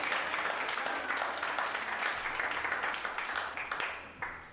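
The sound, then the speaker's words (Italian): Audience applause at a school event, dense and continuous clapping that holds steady before thinning into scattered claps and fading near the end. “Grande applausometro, grande applausometro.”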